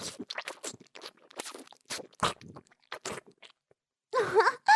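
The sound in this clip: Soft, wet chewing of pudding, heard as many short, irregular squelching mouth sounds with brief pauses between them and a louder, longer burst of smacking near the end.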